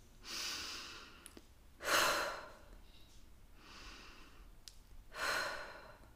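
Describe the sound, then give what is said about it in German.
Deep breathing in and out during a guided relaxation exercise: four slow, airy breaths separated by quiet pauses, the second and fourth slightly louder and fuller. “Lass uns noch einmal zusammen tief ein- und ausatmen.”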